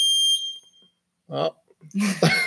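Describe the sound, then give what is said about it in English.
A workout timer gives a single high, pure electronic beep with bright harmonics, lasting about half a second, followed by silence and then people talking. “we got that timer kicking on. Sorry about that. No one's actually working out.”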